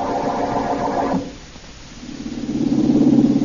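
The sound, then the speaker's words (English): A car engine hums as the car drives out into the country. The low, throbbing drone dips briefly, then swells and grows louder and steadier toward the end. “As we return to our story, Blackie is tied up and the woman is driving him out into the country.”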